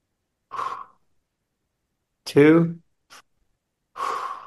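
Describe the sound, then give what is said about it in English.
Breathing in through the mouth during a guided breathing exercise: a few separate, airy breaths, moderately loud, with silence between them and one breath carrying a faint voiced edge. “Now we'll take 6 breaths together to sync our energies. 3 through the mouth and 3 through the nose. Breathe into the mouth.”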